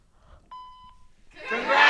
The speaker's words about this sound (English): a brief message on our machine. Thank you very much. Record your message after the tone.